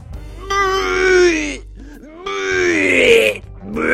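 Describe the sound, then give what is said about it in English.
A voice imitates vomiting with two loud, strained retching groans, each lasting about a second with a wavering, sliding pitch. A short pause separates them. “That's how my dad pukes.”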